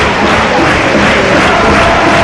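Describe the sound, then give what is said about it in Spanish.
A football crowd of Frente Onuba supporters roars in support of Recreativo at the Estadio Colombino: a loud, dense and unbroken wash of voices and chanting with no distinct breaks. “Bueno, ahora como el público, ¿eh? El público que se viene arriba, los chavales del frente Onuba que animan de lo lindo.”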